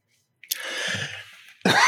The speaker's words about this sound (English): pardon me. All right. I don't know. I can never get rid of this cough. It's driving me crazy.